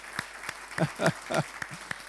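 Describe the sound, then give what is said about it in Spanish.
Scattered hand claps from a church audience, sparse and fairly quiet, with a voice speaking briefly in the middle. “Vamos a darle un aplauso a todos los demás, aquellos que están viniendo hoy.”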